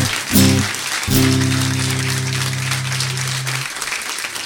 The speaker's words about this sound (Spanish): Aplauso merecido, ¿verdad?